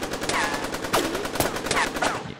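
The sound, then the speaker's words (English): An assault rifle fires from the back window of a blacked-out SUV, with repeated sharp, loud shots in a rapid, continuous stream of gunfire. “A blacked out Suburban pulls up and the back window rolls down and an assault rifle comes out and opens fire.”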